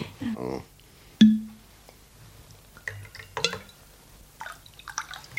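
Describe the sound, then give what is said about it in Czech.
Whisky poured into a glass: small liquid splashes and drips, a clear, ringing glassy clink, then a few more light trickles and taps, all fairly faint. “Já vám naliju whisky, ano? Ale jenom trošinku,”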